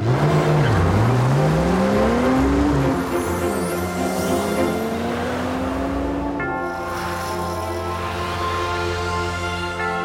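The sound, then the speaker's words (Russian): A car drives up to a large white building, its engine humming steadily throughout, with a wavering pitch that climbs during the first few seconds. “К большому белому зданию подъезжает тот самый автомобиль.”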